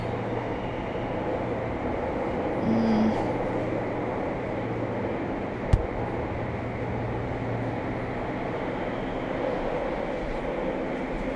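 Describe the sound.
A passenger train in motion gives a steady, even rumble with a low droning hum underneath, broken once midway by a single sharp click.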